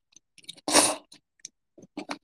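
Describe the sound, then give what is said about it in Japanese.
A person slurping ramen noodles at night makes one loud, breathy slurp, with faint clicks and small chewing sounds scattered before and after it. “夜中にさ、ラーメン吸ってる人の音聞くスペース。”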